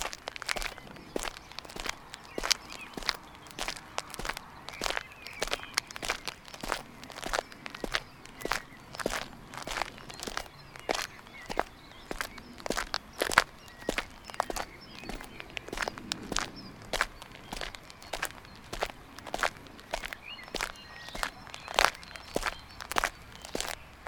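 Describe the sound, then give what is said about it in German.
Footsteps of someone walking straight ahead, a long series of many crisp, evenly spaced steps at a steady walking pace, alone without talk. “Wir laufen geradeaus weiter.”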